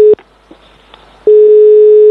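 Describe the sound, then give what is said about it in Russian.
Telephone line tones while a call is being placed: a short beep, then a pause with faint clicks, then a loud steady tone that holds to the end. “И вот я позвонил Александру Николаевичу, чтобы узнать, что он думает про возражение Максима.”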